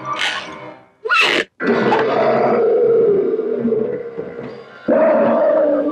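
A lion roars as it slowly and menacingly emerges from a wooden crate: a few brief rough bursts, then a long, loud, low growling roar lasting several seconds, followed by another strong roar starting at the end.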